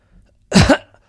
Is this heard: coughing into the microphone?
yes

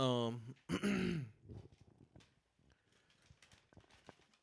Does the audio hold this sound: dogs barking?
no

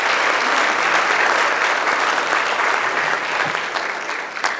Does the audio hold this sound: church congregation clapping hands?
yes

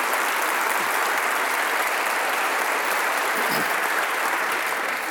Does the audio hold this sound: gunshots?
no

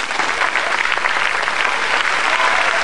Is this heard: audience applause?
yes

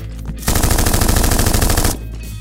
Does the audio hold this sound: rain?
no

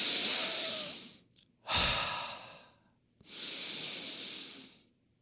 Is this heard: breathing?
yes

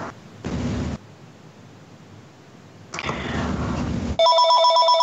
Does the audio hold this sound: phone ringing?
yes

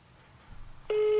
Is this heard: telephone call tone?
yes

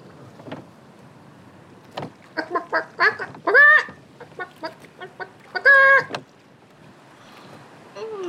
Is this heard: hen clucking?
yes

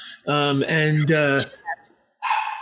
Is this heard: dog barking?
yes

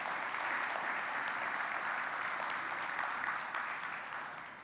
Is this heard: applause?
yes

